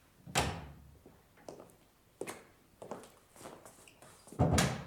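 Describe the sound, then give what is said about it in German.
Knocking on a door of a consultation room in a courthouse on a January morning: several sharp, irregularly spaced raps and thuds, fairly faint against a quiet background. “Es klopft. Herein.”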